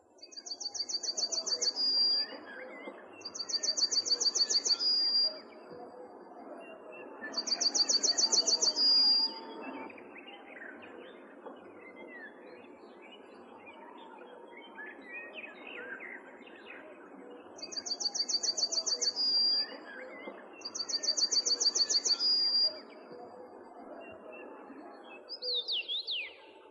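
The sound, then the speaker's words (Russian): A male yellowhammer sings from a treetop, repeating five high, buzzy trilled phrases separated by pauses, with softer chirps of other birds beneath. “Это, сидя на верхушке деревца, поет желтогрудый самец овсянки.”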